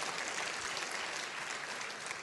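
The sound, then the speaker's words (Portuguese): Applause from an audience in a Methodist cathedral during a sermon: dense, steady clapping that holds at an even level for the whole moment. “Você pode aplaudir Jesus?”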